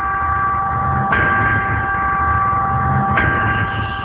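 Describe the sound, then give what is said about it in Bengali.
A radio station's break chime before an advertisement break: a loud, steady bell-like tone that is struck afresh twice, each strike bright and sharp before settling back into the sustained ringing. “আমরা বিরতির ঘন্টা শুনলাম, আমরা বিরতি নিতে চাই পর্যায়ে মাত্র তিন মিনিটের বিজ্ঞাপন বিরতি।”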